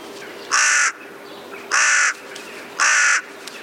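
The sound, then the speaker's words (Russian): A crow cawing: three loud, harsh caws, evenly spaced and each about a third of a second long, ring out alone against a faint, quiet background. “Еще один способ отличить ворона от вороны — это голос. Ворона каркает вот так.”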